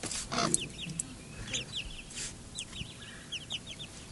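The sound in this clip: Chickens, a rooster with his little chicks: many high, short peeps chirp in quick scattered bursts over faint low clucking and a soft background hiss.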